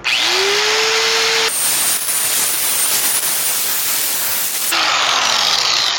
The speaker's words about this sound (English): now I'm gonna take my air file and work the weld proud down a